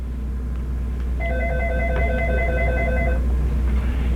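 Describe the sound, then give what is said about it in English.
A telephone ringing: one long, trilling electronic ring of about two seconds over a low steady hum, starting after a brief pause and stopping cleanly, with no voices. “Agnes, can you pick up my phone?”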